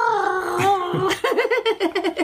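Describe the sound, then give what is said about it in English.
A voice imitates gargling like a TV recap transition, opening with a held, tuneful vocal tone that breaks into a rapid bubbling warble of quick, pulsing throaty bursts. “That's what they do when you have recaps and flashbacks and things like that. They go, they gargle? Always gargle.”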